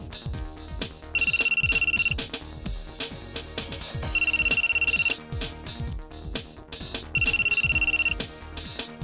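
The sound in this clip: A telephone rings three times with no answer during a late-night call, each ring a steady, high electronic burst lasting about a second with even gaps between them, over continuous music playing underneath.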